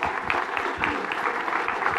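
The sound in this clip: Applause from an audience at a Christian fellowship church service welcoming a pastor: dense, steady clapping that holds at an even level throughout.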